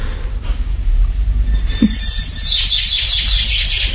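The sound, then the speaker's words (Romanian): Birds chirping outdoors, bright quick high chirps that start partway through and keep repeating over a steady low rumble. “Ce bucurie afară. Păsările au început cu limbuția lor. Cucul s-aude cântând.”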